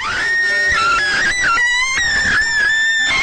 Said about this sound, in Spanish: Se escuchó el grito de una mujer.